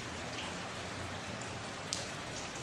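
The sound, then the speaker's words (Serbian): Light drizzling rain on a cold autumn day in Munich: a soft, even hiss that never changes, with one small tap near the end. “Kiša rominja.”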